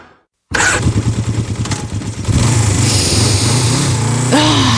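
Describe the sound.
A motorcycle engine starts abruptly after a brief silence and chugs at a pulsing idle, then revs into a louder, steady roar.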